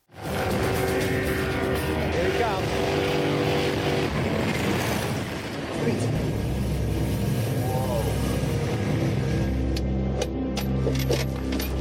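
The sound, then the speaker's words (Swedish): Roaring engine of a purpose-built 2008 Chevrolet Corvette race car on a record-setting 152 mph run by a blind driver, a loud sustained drone that dips briefly midway, then continues with a lower, steadier tone. “Dan Parker slog tidigare i år hastighetsrekord för blinda bilförare utan någon mänsklig hjälp”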